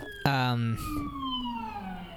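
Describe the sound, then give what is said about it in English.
Emergency vehicle sirens pass by: a short, loud, horn-like blast, then a wailing siren tone that slides steadily down in pitch as it fades. “man, all kinds of emergency vehicles driving by.”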